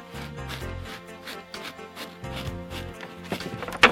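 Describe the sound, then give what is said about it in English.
Someone runs, fast footsteps thudding in a quick series over a tonal background, ending in a louder burst of rattling impacts. “I'll run. I can jump the McGibbon's backyard fence and take a shortcut through the woods.”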